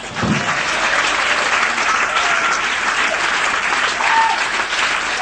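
An audience bursts into warm applause welcoming a blues band onstage in Washington, D.C., the clapping dense and steady for several seconds without letting up.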